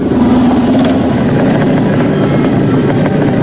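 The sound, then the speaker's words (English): Motorbikes riding up to surround a rider: a loud, steady engine drone with a broad rumbling roar that holds continuously throughout, with no voices. “Michael gets on his bike, but immediately, David and his gang roll up and surround him and Star on their bikes.”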